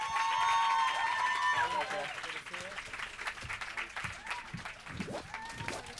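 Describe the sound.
Loud audience applause and cheering welcome the directors and stars of Captain America: The Winter Soldier, a dense, sustained wash of clapping with whistles and shouts standing out early, easing slightly but continuing throughout.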